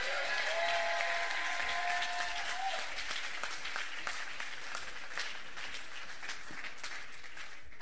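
Audience applause welcoming a panel: a dense, sustained wash of clapping that stays strong throughout and thins slightly toward the end.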